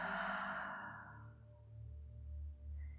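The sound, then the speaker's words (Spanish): A deep exhale through the mouth, following a deep inhale through the nose during a guided breathing exercise. A soft airy rush fades away over about a second, faint and alone over a low steady hum. “Y vas a comenzar tomando una inhalación profunda por tu nariz y llenando tus pulmones hasta el fondo. Por tu boca deja salir todo el aire.”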